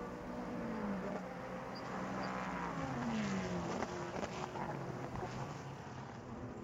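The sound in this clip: Race cars at the Sebring endurance race, a steady, fairly faint engine roar with gliding pitch as cars pass, continuous throughout.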